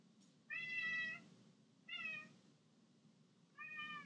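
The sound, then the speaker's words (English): A cat meows three times, clear drawn-out tonal cries separated by short pauses, with the last cut short. Nothing else is heard, and the cries are moderately quiet. “That's my cat.”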